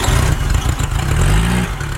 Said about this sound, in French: Quand une vieille Renault Dauphine démarre, il faut parfois être un peu patient.